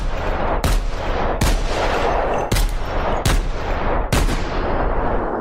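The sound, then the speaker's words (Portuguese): Gunshots fired repeatedly by a frightened robber, all missing: five sharp, loud cracks spaced irregularly over a continuous noisy background. “Para minha sorte, ele atirou várias vezes e errou todas.”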